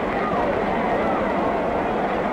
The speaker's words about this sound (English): There's a roar from the crowd. Braves take the field.